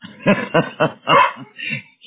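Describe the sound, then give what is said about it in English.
A talkative dog gives a quick run of sharp, fairly high-pitched barks and yips, loud and close together, with brief gaps between them. “sorry about my dog. I got the quiet one out of the litter.”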